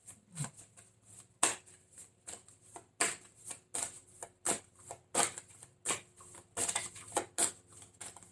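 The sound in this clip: Super Attractor oracle cards being shuffled and drawn, making many crisp, papery riffling bursts in an uneven rhythm, each a quick flurry of slaps, with short pauses between.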